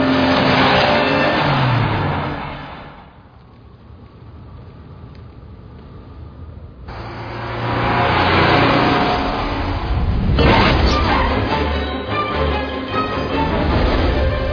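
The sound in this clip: A car engine revs loudly while driving, in two strong bursts of roaring acceleration. Between them comes a quieter stretch of lower, steadier engine noise.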